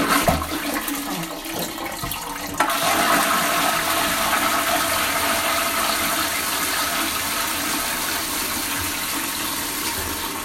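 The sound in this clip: A toilet flushing: faint handling sounds come first, then a sudden loud rush of water that holds steady and slowly eases off as the bowl drains. No voices are heard.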